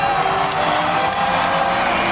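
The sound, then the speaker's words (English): A crowd of hundreds roars and cheers in a dense, loud, steady wash of voices that never breaks or fades. “The crowd roars.”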